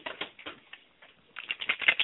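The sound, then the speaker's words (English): Cards rattle inside a worry box with light, quick, irregular clicking taps, thinning into a brief lull midway before a denser, busier burst of rattling at the end. “that's the sound of my worry box. Those are the cards in my worry box”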